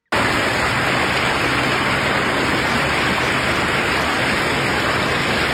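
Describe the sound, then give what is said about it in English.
Floodwater rushing through the streets of Minnetonka and over highways early in the morning: a loud, unbroken roar of water that holds a steady hiss from start to finish, with no voices. “that is, of course, the sound of water rushing through the streets of Minnetonus early this morning, over highways in that area. And wow, when I say rushing, that word does not even do it justice.”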